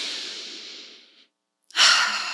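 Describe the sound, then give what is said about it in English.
A deep breath taken during a guided relaxation exercise: a long, airy breath that fades out, a brief silence, then a stronger, louder rush of breath that stays steady to the end, with no talking. “And so let's all just take a deep breath in.”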